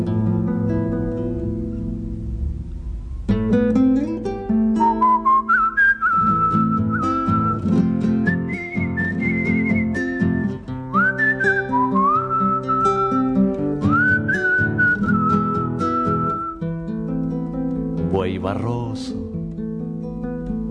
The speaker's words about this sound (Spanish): Como le cuesta a la pobre, ayúdala con el silbo, ayúdala con el silbo.